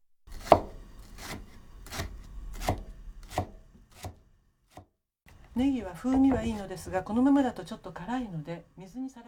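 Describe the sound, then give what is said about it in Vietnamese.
A knife thinly slices leeks into rings in a steady run of crisp, evenly spaced chops, after which a person starts speaking. “Cuối cùng, chúng ta sắc hành baro. Hãy sắc thật mỏng thành những vòng tròn.”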